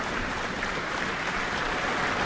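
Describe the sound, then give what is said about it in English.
Applause from a concert audience for an orchestra's wind section after a symphony performance. The clapping is faint, steady and dense, with no break and no voices. “Another round of applause for the wind section.”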